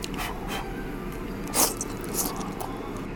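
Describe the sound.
Someone chews grilled beef tongue topped with green onion and salt, making soft, moist bites and one louder crunch midway. A steady background hiss runs under the chewing.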